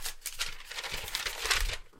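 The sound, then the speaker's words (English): Soft paper crinkling and rustling as a paper notebook is handled, a faint, continuous crackle lasting about two seconds before trailing off. “So I pulled out a notebook and a pen, and here it is.”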